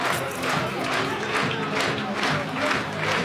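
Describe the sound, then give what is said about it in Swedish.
A football crowd cheers Mjällby's goal against Gibraltar club Lincoln Red Imps in a Champions League qualifier, a steady, dense wash of roaring without clear breaks. “Ja, så där lät det när Mjällby tog ledningen mot Gibraltarklubben Lincoln Red Imps.”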